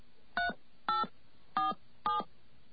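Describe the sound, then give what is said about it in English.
Four evenly spaced touch-tone beeps sound as a toll-free number is dialed to reach a fax-back service, each tone short and clear against quiet line hiss. “we're going to try and call the fax back service right now and see if we get a fax.”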